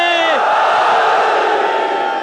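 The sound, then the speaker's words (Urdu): A crowd roars a collective shout in reply to the Naara-e-Haidari slogan praising Ali, Amir al-Mu'minin, at a religious gathering. It is one loud, sustained mass cry that holds steady through the whole moment. “میں نعرہ حیدری لگاؤں گا, جہاں کہیں جو کوئی بھی علی کا چاہنے والا موجود ہے اپنی دل کی گہرائیوں سے امیر المومنین کا نام بلند کر دے. نعرہ حیدری.”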